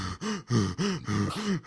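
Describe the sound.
A man takes sharp, voiced gasping breaths during an unwanted kiss: five quick pulls of breath in an even rhythm, fairly faint and with no talk over them.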